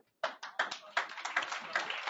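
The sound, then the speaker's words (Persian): Audience clapping at a meeting as a member is welcomed: after a brief silence, many hands break into fast, dense clapping that holds steady to the end. “محکم تشویق کنین آقایون، خانما، استاده ها، نشسته ها، همه میتونن دست بزنن.”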